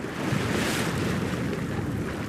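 Sea waves wash continuously at a wave energy plant at Karaburun Port, making a steady, broad rushing noise mixed with wind, with no distinct breaks or separate crashes.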